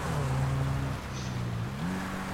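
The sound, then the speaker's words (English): Buggies race on dirt in a video game, their engines a steady droning hum that dips in pitch about halfway, then climbs again as the revs rise. “There's a buggy's racing on dirt.”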